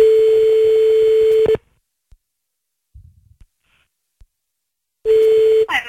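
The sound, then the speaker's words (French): Telephone ringback tone while calling someone back: a loud, steady, low buzzing tone lasting about one and a half seconds, then a long near-silent gap with faint clicks, then the tone again. “Vas-y, on le rappelle.”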